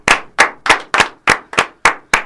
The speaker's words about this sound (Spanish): un aplauso gigante.